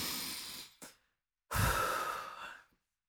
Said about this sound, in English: what we're gonna do is we are going to first breathe